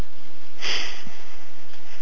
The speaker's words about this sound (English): Now, inhale.